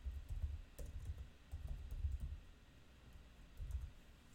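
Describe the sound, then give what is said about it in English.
Soft typing on a computer keyboard as a name is entered into a search, heard as a few irregular clusters of quiet clicks and taps over a low background hum. “I type in Warren Buffett here, okay.”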